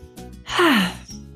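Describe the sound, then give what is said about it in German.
A single deep breath, taken on cue, heard as a loud breathy exhale lasting about half a second, with a voiced tone that falls in pitch as it fades. “Und dann noch einen tiefen Atemzug ein und aus.”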